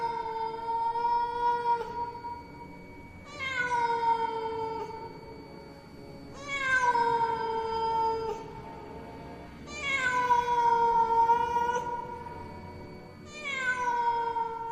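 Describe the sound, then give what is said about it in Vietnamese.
A cat yowls eerily in drawn-out, mournful wails: five long, wavering cries spaced a few seconds apart, each loud and tonal, with no other sound between them. “Nó kêu lên những tiếng vô cùng thảm thiết, tiếng mèo kêu nghe ghê rợn hết cả người, truyền khắp trong tai của tất cả mọi người.”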